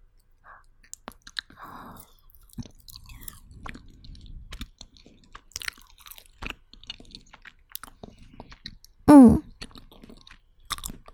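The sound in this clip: Faint crunchy chewing on takeout barbecue ordered from a shop for the first time, heard as soft, irregular clicks and crunches in near silence, with one brief louder sound near the end.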